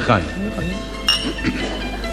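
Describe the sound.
Glasses clink together in a toast, a single brief, bright clink heard under ongoing talk by voices.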